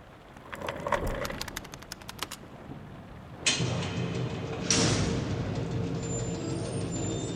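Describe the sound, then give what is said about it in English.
Shutters are opened in the rain: a rapid run of rattling clicks, then two sharp bursts as they swing open, each followed by a louder steady hiss of rain. “Well, open the shutters. Let's take a look at it.”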